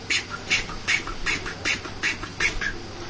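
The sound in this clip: Sharp, high peeps from a songbird that resembles a nightingale, repeated at an even, steady pace as one unchanging call with no other sound around it.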